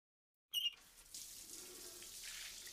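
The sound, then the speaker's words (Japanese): Hot water runs from a tap, opening with a brief squeak as it turns on, then settling into a faint, steady hiss of flowing water. “お湯出して。”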